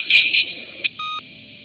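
Touch-tone telephone dialing as a phone number is keyed in: a few short, bright beeps at uneven intervals, the last one held a little longer, followed by a faint steady line hum.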